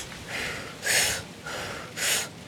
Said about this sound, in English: So you start off by taking 30 inhales and exhales. You go,